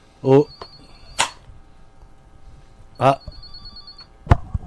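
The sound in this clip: A telephone rings as a call is placed, with a few short ringing bursts and thin steady tones spread over several seconds. Voices are present alongside the rings.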